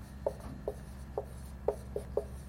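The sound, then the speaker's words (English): Words are written on a board, heard as six short, scratchy strokes spaced at a fairly even pace, faint and dry against a low, steady background hum. “So if it's okay, I thought we'd go ahead and put them on the board, even though you have them on your card there.”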